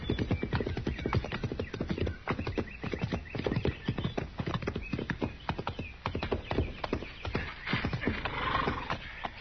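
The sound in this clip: Horses' hooves clip-clop as riders ride over toward a fort: a quick, steady run of many sharp hoofbeats that continues throughout with no talk.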